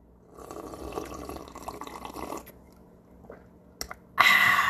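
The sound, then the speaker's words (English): Hot water is poured into tea cups, a soft, uneven liquid splashing that pauses with a few small clinks, then ends in a louder, bright, hissing pour. “we take our cups, pour hot water, grab two tea bags, a little honey for sweetness”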